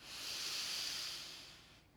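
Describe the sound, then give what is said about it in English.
A slow, deep breath drawn in during a guided relaxation exercise: one steady, airy inhale of about two seconds that swells gently and eases off at the end, with no talking over it. “We're going to now breathe all the way to the tip toes of one of our starfish feet. Let's breathe in.”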